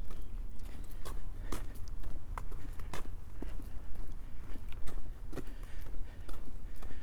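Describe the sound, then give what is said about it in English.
Footsteps along a country lane fall in an even walking rhythm, fairly quiet, over a steady low background rumble. “Walking along a country lane on my way to Surbiton.”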